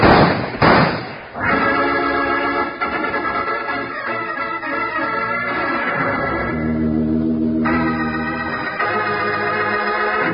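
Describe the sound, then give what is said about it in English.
Gunfire in a Western shootout: a few sharp, loud cracks in quick succession at the start, followed by sustained music. “Start shooting”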